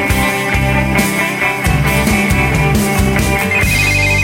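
A telephone rings on an outgoing call, a steady, dense ringing that runs unbroken for about four seconds with no talking.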